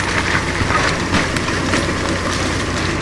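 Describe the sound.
A loud forestry machine shreds plant material and throws out wood fragments in a forest, its dense mechanical roar steady and unbroken throughout.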